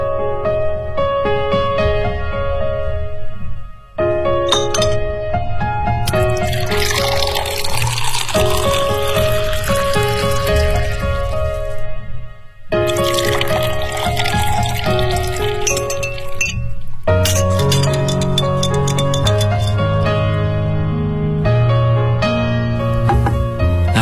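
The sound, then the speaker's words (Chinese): Glassware clinks and liquid pours as a cocktail is mixed from white rum, blue curaçao, pineapple juice and lemon juice. The bright chinks and splashes run continuously, broken by a few brief pauses. “哎，你稍等啊，我想送你杯鸡尾酒。”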